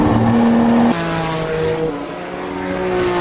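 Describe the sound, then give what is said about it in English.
Racing car engine held on the throttle as the rear end slides, at a historic racing event: a loud, continuous high-revving drone whose tone drops abruptly about a second in, then carries on unbroken and steady to the end. “We can listen to it too. You can hear that I don't really get off the throttle when the rear end starts going around.”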